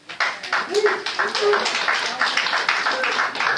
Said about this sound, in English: You're taking time from speakers when you applaud.